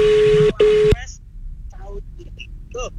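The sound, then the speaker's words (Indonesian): A telephone call being placed: a loud, steady electronic tone sounds for about a second with one brief gap, then cuts off, leaving quieter voices. “Sekarang kita telepon dulu salah satu kalau muda udah daftar nih.”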